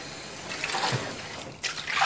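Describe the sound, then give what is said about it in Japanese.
Water trickles and splashes as a sesame tofu mould tube is wetted, a soft, steady wash of liquid noise that swells slightly after a brief dip near the end. “こちらの流し管を水に濡らしときます。”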